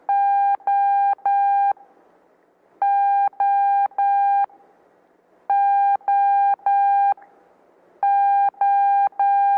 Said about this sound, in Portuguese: Próximo som, letra O de Oscar. 3 sons longos. E um breve espaço de tempo entre os sons, formando som característico da, fonético da letra O de Oscar.